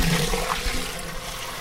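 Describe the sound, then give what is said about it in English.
Homebrew IPA wort drains out of a container in a continuous gurgling rush of liquid, loudest at the start and easing slightly toward the end. “We'll get all of it out of there. Let it drain a little bit.”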